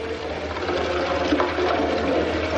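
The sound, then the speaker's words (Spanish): Water runs steadily in a kitchen sink as a saucepan is washed, a continuous even rush and splash at moderate loudness with no distinct clatter standing out. “Ella le observa por la ventana mientras limpia una cacerola en el fregadero.”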